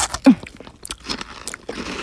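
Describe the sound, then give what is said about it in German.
A crisp bite into a crunchy star-shaped cookie sprinkled with a sparkling topping. One sharp crack is followed by several softer crunching chews, brief and close. “Raufgestreut auf den Sternkeks. Bitteschön. Oh, der funkelt ja richtig, der Keks. Oh, den muss ich probieren.”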